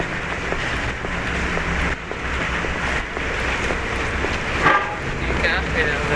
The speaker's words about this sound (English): Cars going every which way.